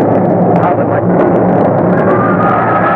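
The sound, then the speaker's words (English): A volcanic eruption of Vesuvius, staged as a radio drama sound effect, comes as a loud, dense, continuous roar with a deep rumble. It holds steady throughout without distinct separate blasts. “Our Vesuvius has exploded! The whole mountain is on fire! Vesuvius is erupting!”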